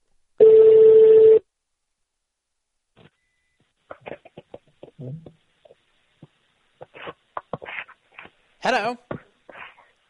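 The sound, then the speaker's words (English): A single U.S.-style telephone ringing tone sounds as one steady, even buzz-tone lasting about a second. Quiet silence follows, then brief, scattered bursts of faint talking. “I hate those foreign rings. I like the U.S. rings so much better. I've always hated the boop. That drives me up the wall. Sounds low-tech to me. I like our ring better.”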